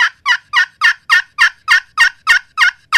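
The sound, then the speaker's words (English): Excited hen turkey yelp imitated on a turkey call: a long, loud run of evenly spaced, raspy high yelp notes in a steady rhythm, with no voices. “That would be one plain yelp right there, or an excited hen yelp.”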